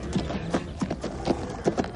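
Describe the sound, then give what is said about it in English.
Horses' hooves clip-clop in a steady trot as a team of bay mares draws a carriage, many quick hoof strikes set against a faint, constant background noise. “Our two bonny bay mares gleamed like shot silk in the sunshine as they drew abreast of Sir John's four splendid coal-black horses waiting for the start.”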